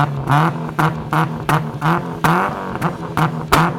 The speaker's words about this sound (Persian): از اونجایی که بوق نداشت موتورش رو روشن کرد